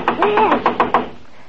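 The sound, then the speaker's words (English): Della knocks excitedly on a door at a notorious criminal hangout in New York's Lower East Side. Several loud, quick knocks come in an even, hurried run, then stop. “we see Della herself excitedly knocking on the door in a notorious criminal hangout in New York's Lower East Side.”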